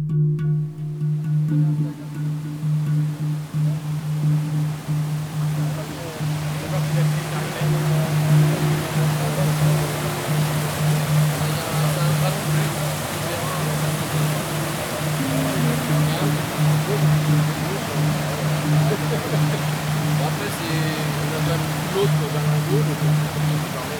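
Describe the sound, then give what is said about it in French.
Water rushing through a dam as its wooden boards are pulled out: a steady, broad roar of flowing water lasting the whole stretch, with a low steady hum beneath it. “On s'affaire autour d'un barrage. Aujourd'hui, on enlève les bastings et l'eau se libère de son carcan.”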